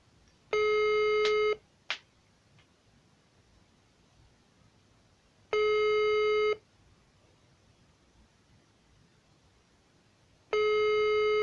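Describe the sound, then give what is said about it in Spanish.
Ringback tone of an outgoing phone call: three buzzy electronic tone bursts of about one second each, spaced roughly five seconds apart, with a short click after the first and quiet line noise between. “Pues ahí, ahí márcale a ver quién de los dos contesta primero y colgamos en corto.”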